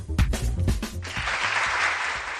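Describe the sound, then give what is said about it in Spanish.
Applause played as a sound effect on a Valladolid radio news segment. It opens with a few loud, separate claps, then swells into dense, continuous clapping that holds at an even level. “Y este aplauso, el semáforo en verde, porque el Ayuntamiento de Valladolid, a través del Servicio de Alumbrado Público, bueno, pues ha mejorado la iluminación del Paseo del Príncipe del Campo Grande”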